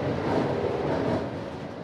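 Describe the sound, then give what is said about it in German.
Steady low rumble and broad hiss of a passenger train running quietly through a tunnel, heard from inside the train as an even, unbroken roar with no voices. “dass der Zug relativ ruhig fährt”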